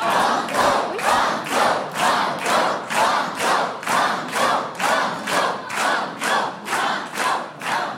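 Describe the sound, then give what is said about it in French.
A quiz show studio audience chants "banco" in unison, many loud, evenly spaced shouts that pulse in a steady rhythm throughout, with some clapping mixed in. “Entendre toutes ces voix chanter banco,”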